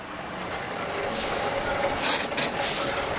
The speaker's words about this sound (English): State inspectors flag down big rigs near the ports.